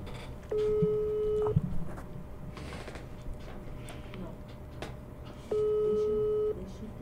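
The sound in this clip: Outgoing telephone call ringing through: two steady, mid-pitched one-second tones separated by a long pause, heard over a noisy background with some shuffling and knocks.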